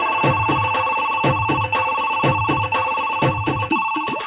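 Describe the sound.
A telephone rings with an electronic ring pattern of rapid, evenly repeating pulses that stay loud and steady throughout, with no talk over it.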